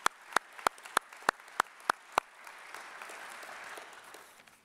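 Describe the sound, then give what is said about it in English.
Applause at a Veterans Day forum as guests are introduced. It opens with a string of sharp, evenly spaced single claps, then becomes a steady wash of crowd clapping that slowly fades. “Let's give them all a hand.”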